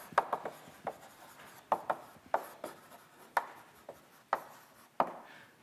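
Writing on a board during a math lecture on trigonometric integrals, many quick, sharp strokes and taps in a steady, uneven rhythm, fairly quiet, with no talk over them.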